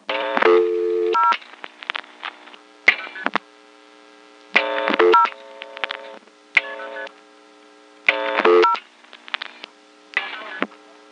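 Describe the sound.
Telephone MF signaling tones as a line dials the operator while a switchhook flash is attempted, heard as several short bursts of layered tones with clicks, separated by near-silent gaps.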